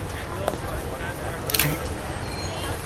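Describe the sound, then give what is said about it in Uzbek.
A camera takes a photo, a brief sharp shutter click set against a constant background murmur with voices. “Maylimi, siz bilan rasmga tushsam.”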